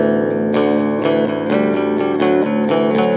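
Eastwood Hooky Bass 6 Pro bass guitar played through an Old Blood Noise Endeavors Visitor pedal set to its phaser mode. A loud, bright sequence of plucked notes repeats in a steady rhythm, each note swirling and sweeping with the phasing effect.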